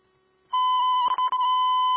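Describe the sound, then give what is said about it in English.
A radio dispatch alert tone for a vehicle rescue call sounds after a brief quiet: a loud, steady, high-pitched electronic beep, broken by two short interruptions before it carries on unchanged. “Vehicle rescue alarm 29-40, squad 40 is on the scene.”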